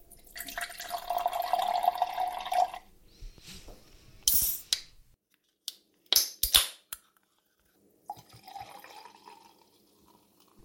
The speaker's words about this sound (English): that was the sound of me pouring myself a very adult, non-alcoholic drink, a measure of Sentia Garba spirit mixed with some ginger ale.